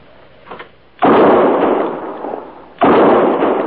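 Two loud gunshots ring out while hunting an antlered animal, each a sharp blast trailing into a long decaying rumble, the second following about two seconds after the first.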